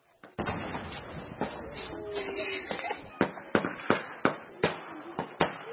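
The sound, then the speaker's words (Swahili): Gunfire as Congolese army troops chase suspected militia fighters in the town of Beni, with many sharp, irregular cracks that become louder and more evenly spaced toward the end. “Huo ni mlio wa risasi kutoka jeshi la Jamhuri ya Kidemokrasia ya Kongo FARDC likikimbizana na wapiganaji wanaoshukiwa kuwa ni Mai Mai”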